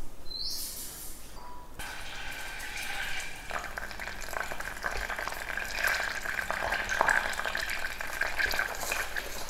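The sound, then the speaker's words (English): Butter melting and browning in a pan while making homemade rice crispy treats, giving a continuous, even crackling sizzle of bubbling fat that holds steady throughout with no talk. “already you can hear the butter bubbling.”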